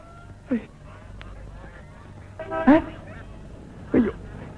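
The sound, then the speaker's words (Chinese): White geese belonging to a commune honk near a road, three short, nasal calls spaced well apart over a low, steady background. “都是这群该死的白鹅。”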